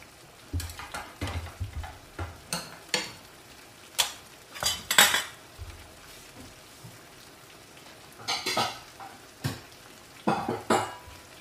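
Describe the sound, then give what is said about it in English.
A metal spoon clinks and scrapes against cookware while a dish seasoned with cilantro is cooked, in scattered clusters of sharp clanks and taps separated by quieter gaps. “Now we take it out. Okay, let me get my spoon.”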